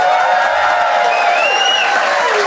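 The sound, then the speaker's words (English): An audience applauds to vote for the best case in a contest, a steady, dense wash of clapping at even loudness with a faint whistle rising briefly through the middle. “if you think they made the best case, please applaud now.”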